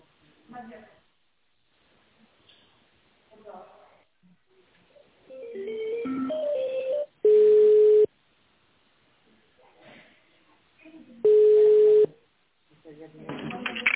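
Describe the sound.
Telephone ringback tones while a business call is transferred: two long, steady, mid-pitched tones about a second each, separated by stretches of faint, muffled voices and line noise.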